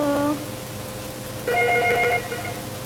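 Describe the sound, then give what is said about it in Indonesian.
A telephone rings with two short trilling bursts of moderate loudness over a steady background hiss, separated by a pause. “Sudah ada telepon lagi kah, Kak Diza? Iya, itu bunyi.”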